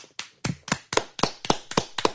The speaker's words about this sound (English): I think that deserves a round of applause. Let's give it up.